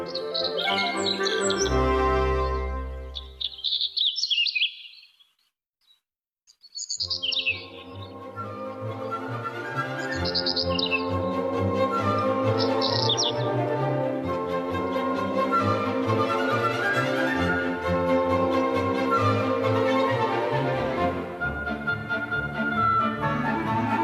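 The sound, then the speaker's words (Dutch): European stonechat song during a May bike ride at the edge of a heathland: high chirping phrases recur over a dense, continuous background, broken once by a brief near-silent gap. “aan de rand van de Katlijkerschaar, verrast door een uitgebreid concert van een roodborsttapuit. Prachtig, dit geluid.”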